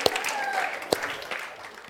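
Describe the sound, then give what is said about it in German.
Applause from an audience clapping to congratulate a man on his birthday: a dense, steady patter of many hands, with a couple of sharper claps standing out. “Herzliche Gratulation und wir klatschen für den Mann.”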